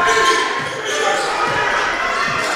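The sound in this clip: Basketball dribbled on the court during a college game between Calhoun and Wallace State, with a few dull, evenly spaced bounces under steady crowd and gym noise.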